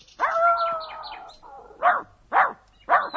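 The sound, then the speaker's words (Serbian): A dog barks three times in short, sharp, loud bursts that follow a longer sustained tonal call. No one speaks. “Laje nam neko.”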